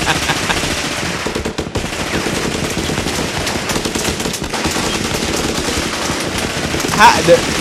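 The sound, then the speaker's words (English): Gunfire in a video game: rapid automatic bursts and scattered shots crackling almost without pause, loud throughout, with a sharper burst near the end. “The fact that they haven't shot that girl with all these random bullets yet is amazing.”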